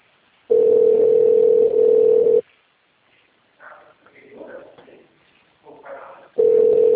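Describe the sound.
A telephone ringback tone from a call that goes unanswered sounds as two long, steady buzzing tones separated by several seconds of quiet, with a faint voice talking in the gap.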